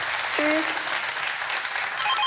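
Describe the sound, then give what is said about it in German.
Studio audience applause on a quiz show after a contestant wins a cash prize: a continuous, even wash of clapping that stays steady throughout the short stretch, with a brief voice sounding over it. “Der Applaus zu Ihnen.”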